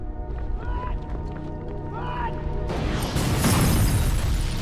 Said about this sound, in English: Fireball explodes out of the tunnel's exit behind the survivors. The blast throws them to the ground.